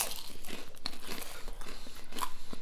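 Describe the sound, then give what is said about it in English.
Crunchy Marmite-coated rice cakes being bitten and chewed, giving a fairly faint, continuous run of many crisp crackling crunches with no talk over them. “So we're having some Marmite rice cakes.”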